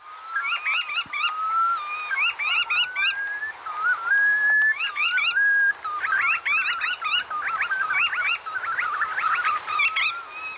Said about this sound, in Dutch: Ja, klinkt goed, hè? Het is een kanoet.